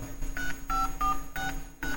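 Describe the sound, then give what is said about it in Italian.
A telephone number is dialed on a keypad, producing a steady series of short touch-tone beeps, each a bright two-note chirp, with no talk. “Tieni, sto già chiamando.”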